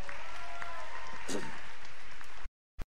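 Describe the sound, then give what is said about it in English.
Audience applause for a musician who has just played: steady clapping for about two and a half seconds that cuts off abruptly, followed by silence and one brief click. “Y'all give Caitlin a hand real quick.”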